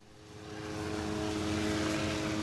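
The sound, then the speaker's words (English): Helicopters hovering over widespread tornado destruction in a town: a steady rotor and engine drone with a tonal hum that swells louder over the first second, then holds even, with no voices. “It wasn't long after the tornado roared across town that helicopters began to hover over the destruction.”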